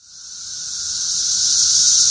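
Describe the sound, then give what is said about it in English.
Periodical cicadas, a mass emergence of the 13-year great southern brood in the American Southeast and Midwest, make a loud, continuous high-pitched droning buzz that swells slightly and holds steady throughout. “Billions of periodical cicadas have emerged over the past few weeks in more than a dozen states across the American Southeast and Midwest.”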